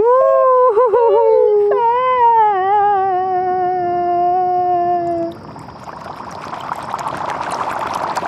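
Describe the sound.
Ghostly wailing and moaning from seven ghosts trapped in a jar: a high, harmonic howl that wavers and trembles at first, then holds a long, steady tone before giving way after about five seconds to a rushing, hissy wash.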